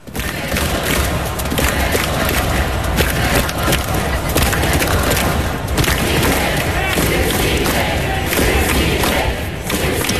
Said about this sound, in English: During the latest demonstrations on Saturday, chants of Syrsky out and Fedorov in his support could be heard.